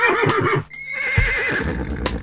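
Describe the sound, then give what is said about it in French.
A small horse whinnies in one loud, wavering call with a shaky, trembling pitch, heard alone with no voices around it. “Ce petit cheval fait.”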